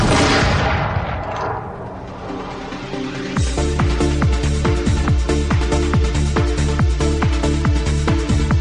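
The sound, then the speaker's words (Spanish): A dramatized firing-squad volley from the 1871 execution of medical students: a loud, roaring burst at the start that slowly decays, giving way to a steady run of rhythmic booming pulses. “Un acercamiento a los sucesos ocurridos el 27 de noviembre de 1871, el fusilamiento de los estudiantes de medicina”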